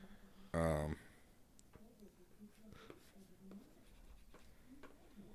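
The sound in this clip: Soft scratching of a pen writing an answer on paper: faint, irregular strokes that run throughout, with one brief louder burst near the start.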